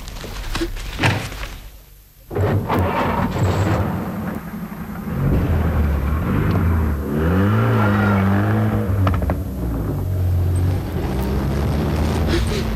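A car engine revs as the car drives off. The motor roar is loud and steady, and its pitch rises and falls as the revs change.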